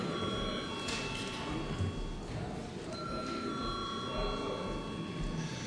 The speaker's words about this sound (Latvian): lūdzu zvanu